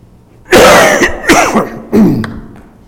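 A person with a tickle in the throat coughs and clears it, a few loud, harsh bursts in quick succession, with the last one trailing off.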